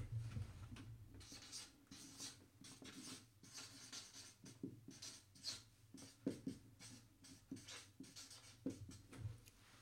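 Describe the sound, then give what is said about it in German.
Pen or pencil scratching as something is written down by hand: many quick, faint strokes and scrapes in an irregular rhythm, heard alone. “Ich schreibe es auf.”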